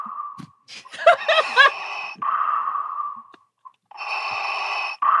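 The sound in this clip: A voice imitates deep, mechanical breathing with a few long, raspy, hissing breaths. They follow short chuckling sounds, and each breath pauses before the next.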